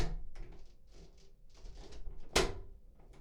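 A door is closed with a single sharp thud near the end, preceded by faint intermittent shuffling and handling noises.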